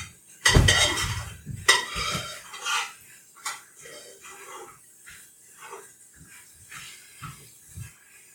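Flour and broth being whisked in a pot: metal clinks and scraping, with loud clattering strokes at first that settle into lighter, irregular scrapes.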